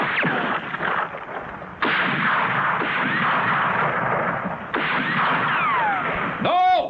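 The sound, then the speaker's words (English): Loud gunfire fills the whole clip as long, harsh bursts of noise. A few abrupt new onsets break it into separate volleys of firing. “Stop firing! We don't want him dead!”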